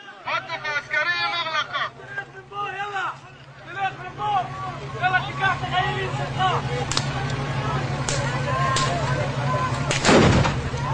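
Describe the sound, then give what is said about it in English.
Stun grenades and rubber-coated lead bullets fired by an army to break up a village demonstration near a separation fence: a few sharp bangs in the second half, the loudest near the end, over crowd shouting and babble. “The army starts to disperse the demonstration, throwing stun grenades and shooting rubber-coated lead bullets without any warning”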